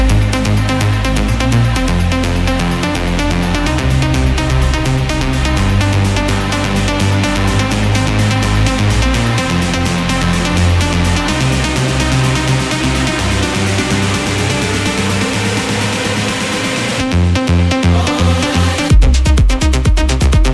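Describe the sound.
An electronic dance remix plays loudly throughout, with a steady pulsing beat and a heavy bass line. It drops out briefly near the end before the beat returns.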